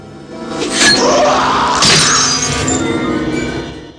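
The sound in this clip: A mirror shatters as it is smashed by a punch during a fight. The crash of breaking glass is loud and bright, and the jangling noise carries on for several seconds before it fades slightly.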